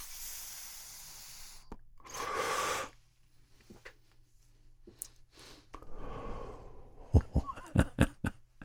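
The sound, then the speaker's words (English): Breathy exhales of vapour after a hit from a Puffco concentrate vaporizer: two soft rushing bursts of air, the first louder, followed by a few sharp clicks near the end. “Just take it in and quickly exhale it.”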